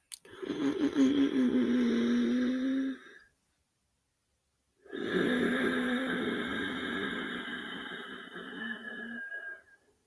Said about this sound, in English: So it sounds a little like this when I start inhaling and bring it down into the breath, or into the belly.